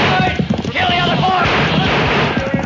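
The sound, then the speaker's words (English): Volley of gunfire in a radio drama wagon ambush: rapid, overlapping shots crackle densely throughout, mixed with shouting voices. “Get them, boys! Use your gun! We got four of them with the first volley.”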